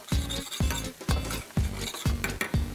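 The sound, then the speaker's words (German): Meatballs fry in a pan with porcini mushrooms and a roux, a soft sizzle broken by a regular series of utensil scrapes and stirs at an even pace. “Mal die Frikadellen raus hier. Ja. Und tu die mit einfach zu den Pilzen, dass die dann noch so leicht gebraten werden, ne?”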